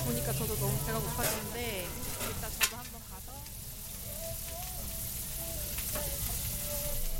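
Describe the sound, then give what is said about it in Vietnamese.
Meat and vegetables sizzle on a grill in a food truck kitchen, a steady hissing fry that runs throughout beneath people talking. “Từ trong khu vực bếp của xe bán đồ ăn, mùi thịt và rau củ nướng tỏa ra tận xa, hấp dẫn một cách khó cưỡng.”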